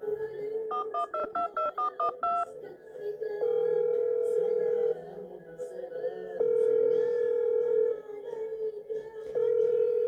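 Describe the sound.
Touch-tone dialing to place a phone call: a rapid run of many short key beeps, then steady ringback tones that repeat at a regular interval.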